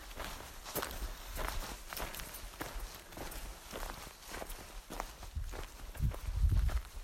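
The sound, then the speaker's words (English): Footsteps crunch along a path through a scree slope strewn with massive boulders. Many faint steps on loose rock fall in a steady walking rhythm. “Just like walking along this scree slope, massive boulders all over the place, and the path cuts its way through.”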